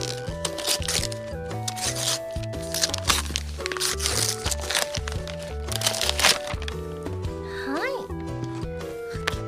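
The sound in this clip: Plastic wrapping of a sweet potato snack package being opened, with many sharp cracking and crinkling rustles over steady background music.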